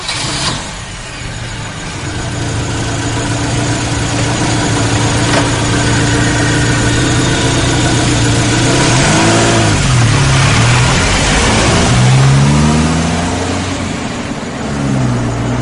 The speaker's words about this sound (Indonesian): Aku langsung berlari menuju mobil dan pulang ke rumah.